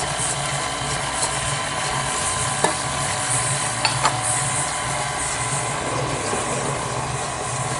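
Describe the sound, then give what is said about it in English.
Chocolate cake batter being mixed, heard as a continuous, steady churning and whirring at even loudness throughout. A few faint clicks break the sound, and there is no talk. “I'm gonna go ahead and mix that just a little bit.”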